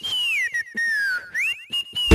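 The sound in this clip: A person whistles a short tune: a bright, wavering melody with sliding pitch, played in several phrases separated by brief pauses.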